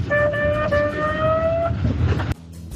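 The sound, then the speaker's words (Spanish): An ambulance siren holds a loud, steady high tone over low traffic rumble before cutting off abruptly, leaving quieter rumble behind. “Eso era la ambulancia.”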